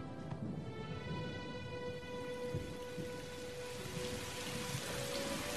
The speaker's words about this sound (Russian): начинает идти дождь.